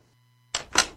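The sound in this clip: A door lock on a solid door clicks shut with two quick, crisp mechanical clicks in close succession, the second slightly louder, after a near-silent moment with a faint low hum.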